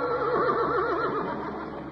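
A horse whinnies loudly beside river rapids, its call quavering rapidly up and down in pitch before trailing off into a steady rushing background.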